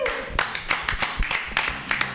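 Audience applause for a comedian: scattered, irregular claps in sharp bursts at moderate loudness, thin enough to suggest a small crowd rather than a full roar.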